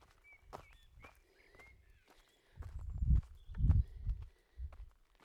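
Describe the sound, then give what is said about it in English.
Brisk walking footsteps in woods, several dull, evenly paced thuds on the ground, with birds chirping faintly above. “So keep briskly walking,”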